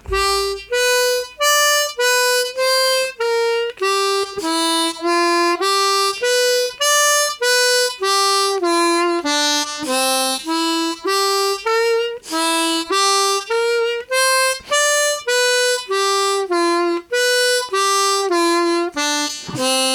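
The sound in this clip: Harmonica arpeggios confined to the first four holes, a rapid, unbroken stream of bright, reedy notes rising and falling in a steady repeating pattern, loud and alone with no talking.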